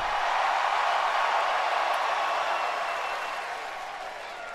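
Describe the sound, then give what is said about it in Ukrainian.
Wrestling arena crowd chanting "welcome back" during a Monday Raw show, a dense, loud, unbroken roar of many voices that holds steady and eases slightly toward the end, with no single speaker standing out. “З поверненням скандують глядачі.”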